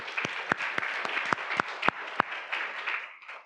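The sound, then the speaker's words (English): Audience applause for a pair of performers: a bed of clapping with about eight sharp, prominent individual claps standing out at a fairly regular pace, thinning and fading in the final second. “For the time being, I'd love to give these guys a round of applause”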